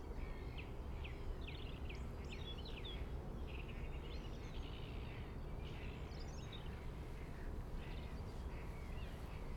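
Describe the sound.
Calls from a common kingfisher: faint, high, thin calls recur several times over a steady background hiss and stay quiet throughout.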